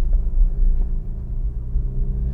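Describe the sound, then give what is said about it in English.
A low, steady engine rumble from a Porsche 911, a continuous deep drone with gentle swells in loudness and no voices over it. “We're in the Porsche 911 Dorian Gray today.”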